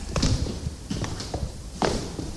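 Footsteps walk into a telephone ticket-sales centre, a few soft, uneven thuds on a hard floor spread across the moment, with quiet gaps between them.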